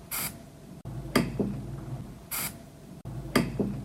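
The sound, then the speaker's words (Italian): Two short hissing bursts of Svitol spray lubricant in a home garage, each followed by a couple of faint metallic knocks from two 13 mm wrenches, forming a repeating rhythmic pattern. “Io nel garage di casa ho usato due 13 fisse e lo svitol.”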